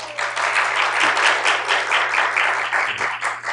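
Live studio audience applauding, a dense, steady wash of clapping that holds for about three and a half seconds and dips slightly near the end, with a low constant hum underneath.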